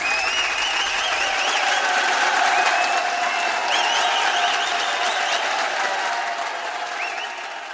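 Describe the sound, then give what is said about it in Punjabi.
Loud, steady applause from an audience welcoming a singer, a dense wash of clapping that holds evenly for several seconds before easing slightly at the end. “ਉਹਨਾਂ ਦੀ ਆਮਦ ਦੀ ਖੁਸ਼ੀ ਵਿੱਚ ਇੱਕ ਵਾਰੀ ਭਰਮੀਏ ਜ਼ੋਰਦਾਰ ਤਾੜੀਆਂ ਮਾਰ ਦਿਓ ਬਾਈ ਜੀ।”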